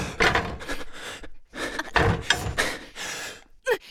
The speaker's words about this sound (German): Mach die Tür auf.